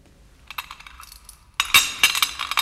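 Keys jingle and clink as they are handled. Light, scattered metallic taps come first, then a louder, denser jangle of metal fills the second half, with no voices.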